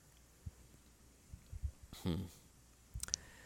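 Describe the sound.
Typing on a computer keyboard, with a few faint, scattered key clicks in short bursts and a brief voice in the middle.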